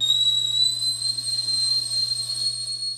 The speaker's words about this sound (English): At long last, the kettle began to whistle